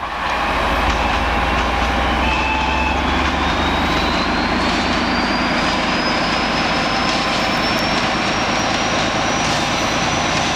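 Deep diesel drone of a 'Brejlovec' locomotive hauling a special train at a level crossing in fog, loud and steady throughout, with a thin high whine that slowly climbs in pitch above the rumble.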